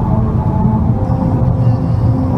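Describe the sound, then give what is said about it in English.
Steady, loud low rumble of a car driving over a rumble strip on Route 66 in New Mexico, droning without a break for the whole moment. “It sure does. Yeah, it's driving on the Rumble Strip.”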